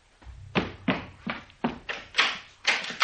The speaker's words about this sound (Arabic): لا لا لا، انا هقوم افتح الباب وهلعبهم لك عشانك